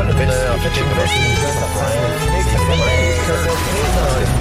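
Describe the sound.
Cat meows are woven into the theme music of a documentary series: a few rising and falling mewing calls sound over continuous, loud instrumental music.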